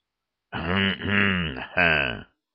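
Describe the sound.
A man, a military marshal, coughs three times in quick succession. The coughs are voiced and grunting, and the last one is short and sharp, with no other sounds around them.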